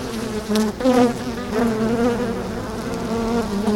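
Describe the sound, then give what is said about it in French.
Bees buzzing around beehives at an apiary on a citadel site in Arras: a continuous, fairly loud droning hum of overlapping wings that wavers slightly but never stops. “Donc ici, tu as un certain nombre de ruches.”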